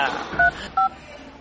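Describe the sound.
A telephone being dialed to place a call, heard as two short, steady dual-tone keypad beeps spaced well apart over a faint background hiss.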